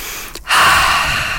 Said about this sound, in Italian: Avete fatto un respiro profondo? Facciamolo adesso.